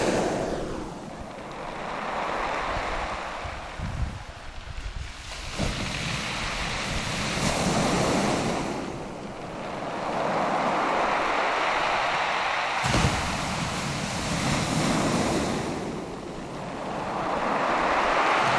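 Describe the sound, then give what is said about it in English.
Sea waves rolling over and dragging through large pebbles on a beach, loud, steady rushing surges with gravelly rattling that swell and ease in repeated cycles, mixed with wind buffeting. “And the noise that the pebbles make as the sea sort of rolls over them is really nice. Oh, this is a big wave.”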